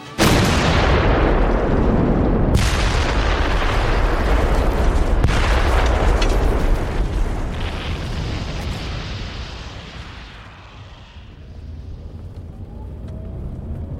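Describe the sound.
Heavy explosions from mines demolishing the old city quarters of Marseille, heard as a continuous loud, deep roar with a few sharp blast onsets, easing somewhat in the second half before swelling again.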